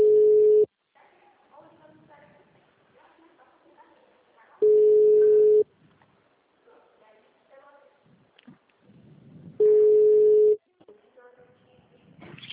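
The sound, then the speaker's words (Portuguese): Telephone tones from a telemarketer's call: three long, steady, low-pitched beeps spaced about four seconds apart, with quieter voices heard in the gaps between them. “É o telemarketing tá te ligando,”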